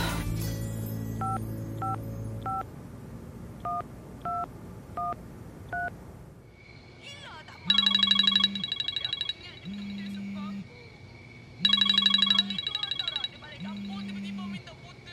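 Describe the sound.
A phone is dialed and then rings: a quick run of short keypad tones in two bursts, then a repeating ring pattern of loud, bright bursts separated by regular pauses, over a faint low hum.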